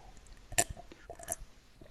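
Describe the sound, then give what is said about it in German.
Someone sips meat broth, two short, faint slurps with small mouth noises between them. “Ich trinke erst erstmal einen Schluck hier von meiner Fleischbrühe.”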